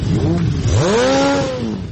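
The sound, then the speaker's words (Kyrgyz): Motorcycle engines rev loudly in a Bishkek street as hundreds of bikers gather for the opening day of the motorcycle season, a throaty, continuous roar whose pitch climbs sharply, holds high, then eases back down. “Ылдамдыкты эңсегендер жана гүлдөгөн мотор Бишкектин көчөлөрүн жүздөгөн байкерлер каптады.”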